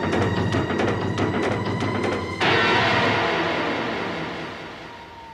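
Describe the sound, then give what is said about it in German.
A car speeds along with no headlights on: a rough, pulsing engine drone gives way to a broad rushing whoosh that slowly fades. “Der fährt ja ohne Licht. Dafür umso schneller.”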